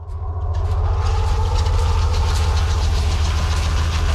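A Swedish tracked vehicle's engine drones in the Norwegian mountains in midwinter snow and deep cold, a loud, continuous low rumble with a steady mechanical chug that rises briefly at the start and then holds.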